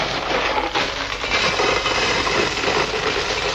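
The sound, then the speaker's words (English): Rocks of gravel are handled as raw material for tape-recorded sound effects, giving a continuous, dense, gritty rattle of many small clicks and knocks at a steady, fairly loud level. “What have we got here? Rocks of gravel.”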